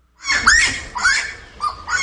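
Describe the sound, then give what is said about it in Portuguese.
Saracura (wood rail) calling: a few loud, raspy calls that rise in pitch, repeated in quick succession with no talk. “É pra Saracura cantando por aí.”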